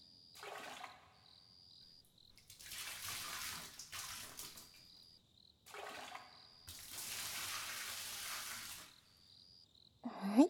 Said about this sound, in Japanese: それじゃあ一旦、お背中は流しちゃいましょうか。お湯かけますね。